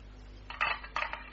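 Keys being tried one after another in a lock, giving a few light metallic clinks and jingles that come in short clusters, quiet, with no talk.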